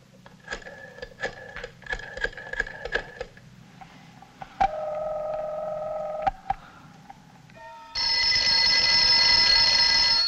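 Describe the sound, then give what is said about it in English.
A telephone rings at an athletic club: a run of quick, buzzing ring pulses, then a steady held tone, and finally a loud, sustained ringing that carries to the end. “A phone rings in the Hollywood Athletic Club.”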